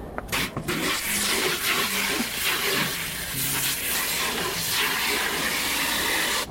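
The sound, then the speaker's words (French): A strong water jet sprays seeds to rinse away the remaining pulp. It makes a loud, steady hissing rush that runs throughout, with a few sharp bursts at the very start. “Alors là, avec un grand coup de jet, je vais tout séparer et les graines vont être propres.”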